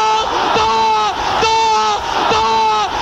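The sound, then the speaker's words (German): Thousands of World Cup football fans shout a single word in unison. A loud, tonal crowd chant repeats three times in a steady rhythm. “Nachbarn fallen sich jubelt in die Arme und aus tausenden Kehlen schallt ein einziges”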